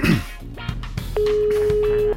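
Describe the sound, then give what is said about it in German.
A telephone being dialed to place a call: a few soft clicks, then a steady, level tone that holds for about a second before cutting off. “Ich muss ja Barnaby noch anrufen.”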